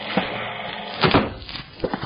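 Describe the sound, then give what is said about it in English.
A door being opened in a radio crime drama: a few soft wooden thumps and clicks, low in level, with a small cluster in the middle and one more near the end. “But if Martin's got what I think, then go on, inside. I'll get the door.”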